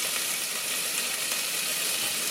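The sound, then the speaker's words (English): Broccoli sizzles as it is added to a hot pan, a steady, bright hiss of frying that holds evenly throughout. “gonna start adding the broccoli”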